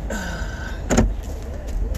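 A car door opens in a parking spot with a single short, solid thump in the middle, set against a low, steady vehicle hum.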